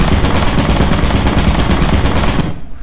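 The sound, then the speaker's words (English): Rapid turret gunfire in a video game rattles out as a dense, continuous stream of shots, loud and unbroken for most of the stretch before cutting off abruptly near the end. “I don't know if you'll understand bullets or a turret, but there is a turret in there.”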